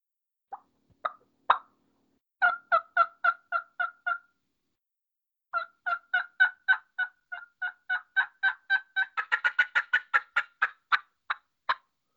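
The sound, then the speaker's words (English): Hunter's turkey call going from a tree yelp into a cackle: a few soft, scattered yelps, then a steady run of evenly spaced yelps, a short pause, and a long string of yelps that quickens into a rapid, choppy cackle. “And I'll basically just go from tree yelping right into a cackle, which is what it sounds like.”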